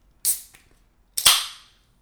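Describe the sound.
A can of C4 Tropical Blast carbonated energy drink is opened with two sharp pressurized hisses. The second hiss is louder and longer and fades out over about half a second.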